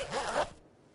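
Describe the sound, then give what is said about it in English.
A single short, rasping snap from a finger-stick lancing device used to manage type 1 diabetes, lasting about half a second before dropping to quiet. “This is the sound of managing your type 1 diabetes using finger sticks.”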